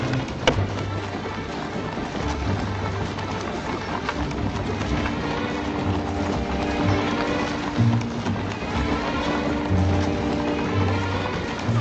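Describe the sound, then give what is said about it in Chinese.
Horse-drawn silver carriages, each with a coachman, drive into a large carriage terrace, heard as a steady, dense clatter of hooves that runs evenly throughout at moderate loudness. “每一辆驶出的银马车上还带着一名车夫。当马车驶进大车台之后。”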